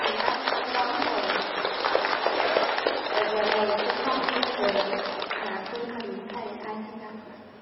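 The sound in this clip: An audience at a Buddhist dharma gathering claps in dense, steady applause that fills the whole stretch and eases off slightly at the end, with voices sounding over it.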